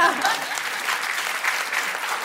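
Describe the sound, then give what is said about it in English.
An audience applauds at a live debate, a steady wash of many hands clapping that is a little louder at the start and then holds level. “Oh, thanks for the round of applause.”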